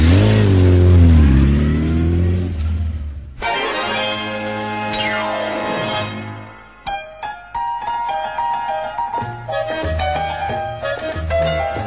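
A motorcycle engine revving, loud, its pitch swelling and sinking over the first few seconds before other sounds take over.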